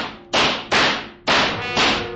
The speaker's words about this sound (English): The shots were wild, and there were holes in the wall all around me.